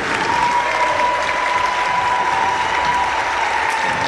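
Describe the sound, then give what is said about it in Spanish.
A crowd applauds the participating teams at a sports tournament. It is a sustained, even roar of many hands clapping at once, holding steady throughout with a thin constant tone faintly underneath. “Voy a nombrar para que le demos un fuerte aplauso a los equipos participantes.”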